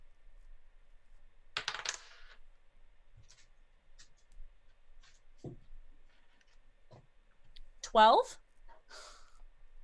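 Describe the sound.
Dice rolled for a dexterity check during a tabletop role-playing game: a few faint scattered clicks come first, then one short, louder rattling clatter that spins and settles quickly.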